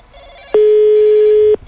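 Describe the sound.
A telephone rings once, a loud electronic ring tone held at a steady pitch for about a second, then cut off.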